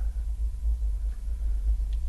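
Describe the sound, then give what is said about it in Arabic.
Low, steady engine rumble from an idling hotel bus, a dense drone with no clear breaks and no voices over it. “هذا أتوبيس الفندق.”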